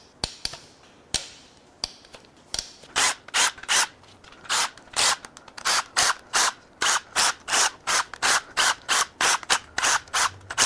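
Ratchet wrench cracking tower bolts loose during engine work: a few isolated clicks give way to a long run of many rapid, regular ratcheting strokes, loud and clear with no speech.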